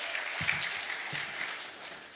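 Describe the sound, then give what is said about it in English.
Faint applause from a church audience, a soft round of clapping that holds at a steady level and tapers slightly at the end. “Hey, give them a round of applause for coming up here.”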